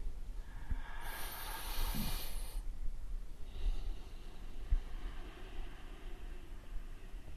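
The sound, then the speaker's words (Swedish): A slow breath in and out, very soft: an airy, hissing inhale, then a pause, then a longer, gentler exhale over a faint background hiss. “Jag tänkte vi kunde sluta med ett andetag kanske.”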